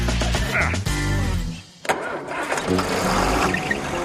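A 2-ton pickup truck engine, hitched to a loaded trailer, roars loud and rumbling almost without a break, dipping briefly near the middle before surging again.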